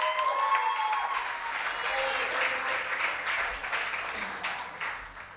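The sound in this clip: Audience applause welcoming a poet to the stage at a poetry reading, a sustained wash of clapping that stays strong and then eases slightly toward the end.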